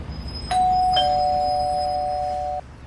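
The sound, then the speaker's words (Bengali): An electric doorbell rings at the door of a two-storey house, giving one loud, steady electronic tone that holds for about two seconds and then cuts off abruptly. A second chime briefly overlaps it just after it starts. “বাগবাজারের একটা দোতলা বাড়ির সামনে গিয়ে calling bell টিপলাম”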